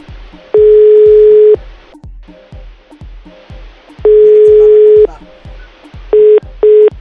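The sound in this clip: Ringback tone of a telephone call going unanswered: two steady one-second tones with a long gap between them, then two short beeps. A regular low thumping pulse runs underneath throughout.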